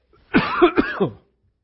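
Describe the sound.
A person with a sore throat, coming down with an illness, gives a short, rough cluster of coughs and throat clearing lasting under a second, loud and close, then silence.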